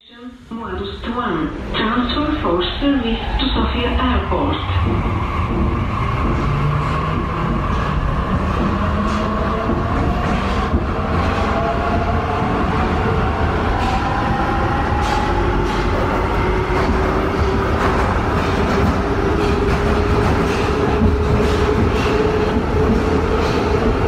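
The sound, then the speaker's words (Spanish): A metro train runs in Sofia, Bulgaria, a heavy rumble with a motor whine that climbs steadily in pitch as it speeds up, while people talk over it. “Acabamos de saltar la cancela del metro de Sofía en la República Popular de Bulgaria.”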